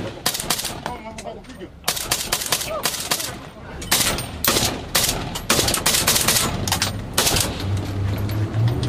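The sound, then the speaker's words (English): Gunfire erupts around a Kenyan police patrol in a deserted neighbourhood of Haiti's capital: loud, sharp bursts of rapid shots in several clusters, with a low hum entering toward the end. “We're joining the Kenyan police on a patrol. It's not long before we come under fire.”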